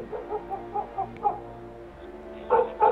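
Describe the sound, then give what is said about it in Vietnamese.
Dogs bark loudly down the street in a string of short yips and barks with uneven gaps. The last two bursts come out louder than the rest. “Gió nổi lên, ở bên kia tiếng chó sủa râm ran ầm ĩ cả một góc phố.”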